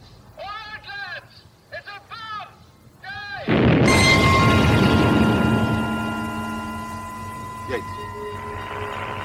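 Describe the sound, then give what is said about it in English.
A bomb explosion in a radio drama follows a man's urgent shouting. A sudden, loud, roaring blast erupts, then rumbles and slowly fades over several seconds, with lingering tonal ringing. “It's a bomb. It's a bomb. Get out of it, Yates.”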